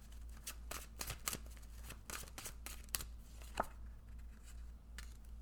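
Tarot cards being shuffled and drawn, heard as crisp papery riffles and snaps in short irregular bursts, fairly quiet, with no talking.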